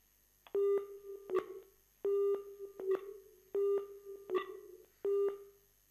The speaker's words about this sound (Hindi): देखा एक फोन आ रही है